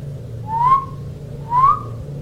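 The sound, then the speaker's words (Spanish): Someone whistles among the trees near a cabin in the woods: two short, clear whistled notes, each gliding slightly upward, about a second apart, over a low steady hum. “Alguien silbó entre los árboles.”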